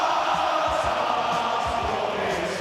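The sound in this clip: Hearts football fans singing and roaring to welcome their team for their biggest game in a generation, a loud, dense and unbroken wall of crowd voices that holds steady throughout.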